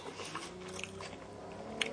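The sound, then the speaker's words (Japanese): Chewing and biting on a cold Wendy's Single Classic hamburger: steady, soft mouth sounds with a few crisp transients and one sharper bite near the end. “どうする、今ウェンディーズのシングルクラシック食べてますけどね。”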